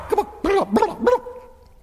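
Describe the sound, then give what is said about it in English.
A voice imitates a dog barking while singing a children's farm-animal song: four short, tuneful, yelping "woof" sounds in quick succession, then a fading tail. “My old doggy went.”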